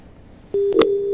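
A telephone line tone after a call is cut off on a weak mobile network during rainy weather. A brief click comes just before a steady, pitched tone that starts abruptly and holds unbroken to the end.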